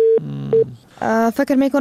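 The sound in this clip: Telephone line tone after a phone call cuts off when the caller's credit ran out: two short, steady beeps separated by a brief gap, followed by a voice talking.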